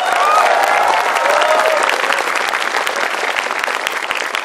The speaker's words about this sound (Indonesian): Tepuk tangan buat petani di Indonesia.